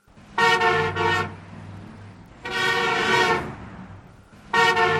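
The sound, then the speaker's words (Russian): Car horns honking impatiently in traffic: three loud, brassy sustained blasts, the middle one the longest, with no talk. “Сзади нетерпеливо загудели клаксоны.”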